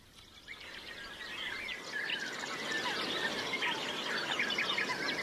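Birds singing at a small bird lake in coastal dunes around sunrise as light rain begins, a dense chorus of many high chirps and trills that continues without a break and grows slightly louder over a steady hiss.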